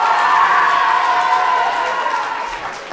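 Middle school students cheering and shouting together at a school competition. The roar is loud and sustained and eases off slightly toward the end.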